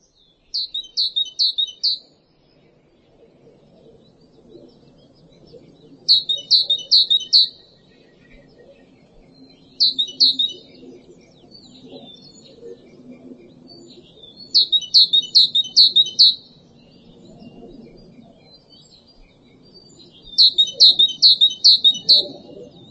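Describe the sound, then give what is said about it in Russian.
A tit (titmouse) sings five phrases of rapid, high-pitched repeated notes separated by pauses, over faint low background noise. “Синица.”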